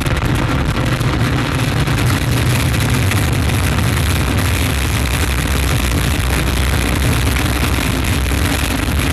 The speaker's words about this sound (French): top, allumage Vulcain. Allumage confirmé. Top, allumage EAP, décollage.